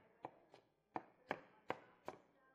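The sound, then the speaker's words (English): Lettuce is cut in six crisp, evenly spaced strokes against a board. Each is a short, faint crunch with a brief tail, and no voices are heard. “do y'all know why you're not supposed to use a knife when you're cutting lettuce like I am?”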